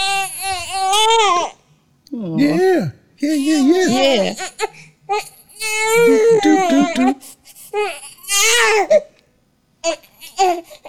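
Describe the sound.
A baby boy fusses and cries in repeated whiny, wavering wails and babbled bursts of shifting pitch, separated by short pauses, alone and fairly loud.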